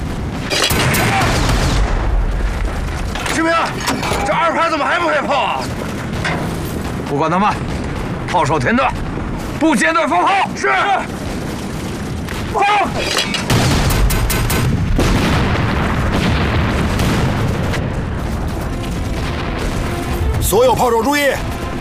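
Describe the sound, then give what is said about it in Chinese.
Heavy artillery and machine-gun fire roar through a battle with heavy machine guns on both flanks, a loud, continuous din of blasts and bursts beneath urgent talk. “敌人的火力非常的凶猛，两侧都有重机枪，命令重炮营给我狠狠的打。”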